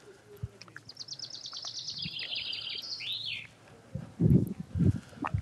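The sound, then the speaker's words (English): Birds sing in the background outdoors at a former concentration camp memorial: a rapid run of high chirps, then a sweeping call. They are fairly faint, and a few louder low thumps come near the end. “I think you may hear some birds in the background here too.”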